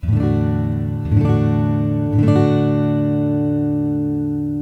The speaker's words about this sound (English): And the D chord should sound like this.